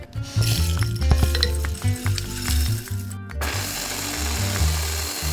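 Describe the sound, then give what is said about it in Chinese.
An electric grinder grinds Sichuan peppercorns with a loud, continuous whirring drone and a gritty rattle. The sound shifts to a smoother hiss about two thirds of the way through. “把磨碎中药粉装有深度的大碗中，然后把花椒也放入粉碎机中磨碎。”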